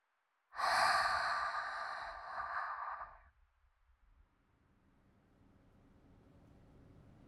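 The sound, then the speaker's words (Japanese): A single long, slow exhale during a breathing meditation for relaxation: a soft, breathy rush of air that holds steady for close to three seconds and then fades into near silence with faint low background noise. “今度はゆるゆる吐いていくよー。”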